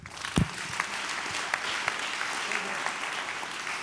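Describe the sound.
Congregational applause during a church service, dense steady clapping that fills the whole clip, with a brief louder burst near the start.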